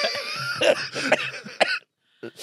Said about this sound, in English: You probably want to tap to that cough, mate.